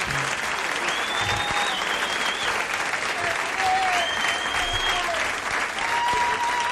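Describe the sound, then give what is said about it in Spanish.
Applause from a crowd after a guitarist's performance, a steady dense wash of clapping that stays loud and even throughout, with faint voices and whistles mixed in. “aplauso grande para el Pepe”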